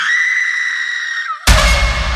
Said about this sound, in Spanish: Un alarido que venía desde el bosque, como si partiera el aire en dos. No era un grito de miedo, era de dolor, de pérdida.